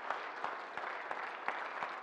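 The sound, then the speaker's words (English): Audience applause and hand clapping from a standing audience honoring rescue workers, veterans and military members at a church service: dense, steady clapping from many hands, fairly even in loudness throughout. “Give these guys a great hand clap.”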